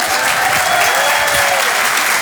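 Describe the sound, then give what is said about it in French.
A comedy club audience at the Apollo applauds a comedian loudly and continuously. The dense, even clapping holds at a constant level with no talk over it. “On peut l'applaudir très très fort, Malik Fares.”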